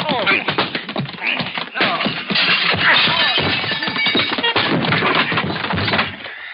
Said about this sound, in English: I got his gun. I hit him again. Yeah. Again. Once more.